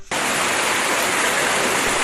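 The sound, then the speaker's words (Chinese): Stream water flows in winter among reeds at Sanlihe near Qianmen in Beijing. After a brief quiet start, it becomes a steady, loud, hissing rush of water that holds even and constant to the end. “流水潺潺，芦苇飘荡”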